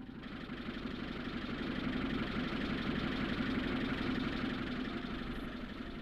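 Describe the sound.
A vehicle engine idling as it arrives, a steady low rumbling drone with a faint knocking pulse that holds even throughout, with no voices.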